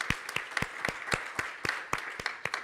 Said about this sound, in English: I want to give a hand to all of those who are visiting today,